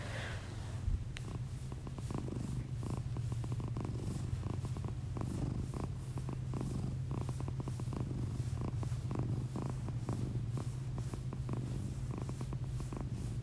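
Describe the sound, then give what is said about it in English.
A female cat purring, a steady low rumble with soft rhythmic pulses that runs without a break through the whole stretch. No voices are heard. “I just wanted to do a little ASMR and see if you can hear her purring”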